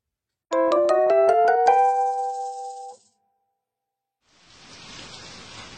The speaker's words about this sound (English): 外は激しい雨